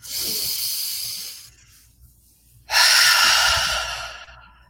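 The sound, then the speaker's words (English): Big deep breaths blown out during a tapping relaxation exercise, heard as two long, loud rushing exhalations, each hissing steadily for over a second, separated by a brief quiet pause. “And then big deep breath out.”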